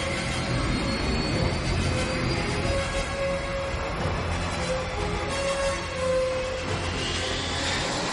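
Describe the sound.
An airplane's jet turbine spins up as the plane starts to move, giving a dense, steady roaring rush with a thin whine that climbs in pitch near the end.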